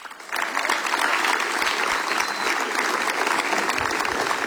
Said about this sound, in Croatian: a zato ćete i vi nagraditi velim pljeskom.